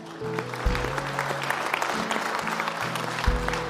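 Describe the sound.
Audience applause thanking the guests at a worship gathering, a steady dense patter of clapping that holds through the whole stretch with a few slightly louder swells.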